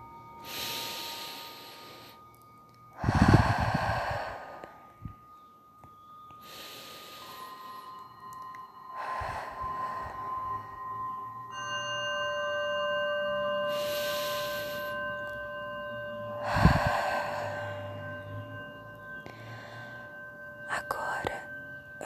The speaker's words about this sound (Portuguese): a gente vai respirar três vezes.